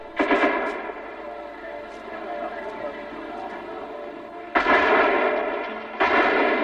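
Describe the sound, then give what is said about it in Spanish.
Heavy gunfire rattles during an attack on the government house in Chile, a dense, loud crackle with strong bursts at the start and again in the second half, while a man talks over the shooting. “en este instante el fuego se intensifica como culminando el ataque que ha debido realizarse sobre la Casa del Gobierno.”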